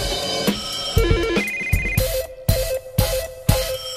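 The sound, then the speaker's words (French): A telephone rings with an electronic melodic ringtone, a stepped tune that repeats over sharp, regular percussive beats. “Et si à Carré les liaisons téléphoniques ne sont pas évidentes, ici ça sonne souvent.”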